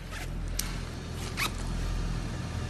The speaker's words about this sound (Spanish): Te baja la cremallera.